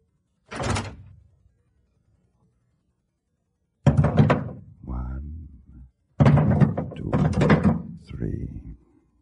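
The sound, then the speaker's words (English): A door is pulled open as armed men surrender and come in, a single brief thump-and-scrape near the start. After a pause, men's voices talk. “We'll open the door.”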